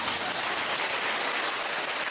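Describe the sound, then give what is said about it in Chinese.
Applause from an audience at a live event, a dense, steady wash of clapping that holds at an even, fairly loud level throughout, with no voices over it. “鼓掌。”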